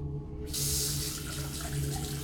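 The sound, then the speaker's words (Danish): Running tap water pours as fingers are washed under it: a continuous hiss of water into the sink that swells fuller after the first half second and stays steady to the end. “Jeg vasker fingre nu.”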